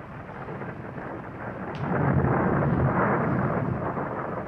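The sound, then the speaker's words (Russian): Thunder rumbles through a thunderstorm: a continuous low roar that swells after about two seconds and holds heavy and broad until the end, with no voices. “Это что, гроза, да? Нет, это гроза.”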